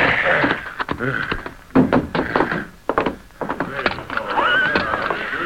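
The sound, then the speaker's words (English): A horse whinnies as riders draw rein in front of a cafe. Hoof clops and dull thuds come first, then a shrill, wavering neigh rings out near the end. “Meanwhile, Dusty and Joe had doubled back and ridden to town. They drew rein in front of the cafe.”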